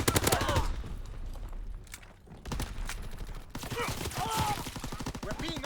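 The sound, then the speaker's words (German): Rapid automatic gunfire in a video game as a player pre-fires into a corner: dense bursts of shots, a brief lull, then more sustained firing, with voices talking over it. “Ich hab mal einfach pre-fired in die Ecke.”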